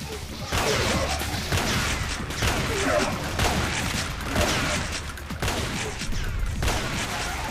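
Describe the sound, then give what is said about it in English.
Gunfire in the Xonotic video game: several loud, rapid bursts of shots come in waves, with noisy whooshing and crashing between them. “we're getting shot at by a red jerk”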